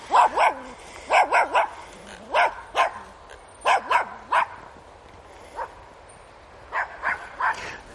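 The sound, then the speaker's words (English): A small dog yaps repeatedly: many sharp, high barks come in short clusters of one to three, separated by brief pauses. The yapping is clear and fairly loud. “Excuse the yappy dog, it's not mine.”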